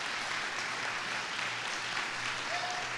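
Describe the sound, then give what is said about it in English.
A church audience applauds to welcome a guest onto the stage, with steady, dense clapping that holds an even level throughout. “Now, let's give it up for a North Church welcome to Yolanda Thomas as she comes.”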